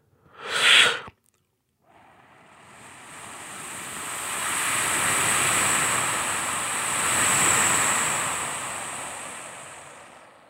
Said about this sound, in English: Did you use ocean waves in the movie? And that sounds like this.